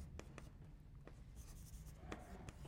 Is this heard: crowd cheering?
no